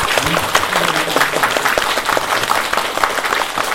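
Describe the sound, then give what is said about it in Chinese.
Audience applause at the close of a guqin lecture at a music conservatory: dense, steady clapping from many hands that holds at an even loudness from start to end. “我们最后再以热烈的掌声对郭平教授的”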